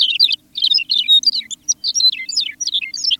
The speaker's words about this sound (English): Their sweet songs fill the warm air. Songs such as those of McCown's longspur,